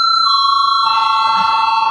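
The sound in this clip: A vote bell rings in the Latvian parliament chamber to call members to vote. It is a loud, steady electronic ringing tone that holds unbroken for the whole two seconds.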